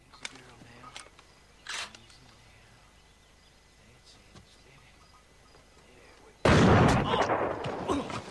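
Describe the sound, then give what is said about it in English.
A single rifle shot fired toward a nearby ridge bursts out suddenly and loudly after a quiet stretch of faint rustles, its harsh blast ringing on without a break to the end. “He sees a Confederate mount Jen's saddle on a nearby ridge, takes aim, and fires.”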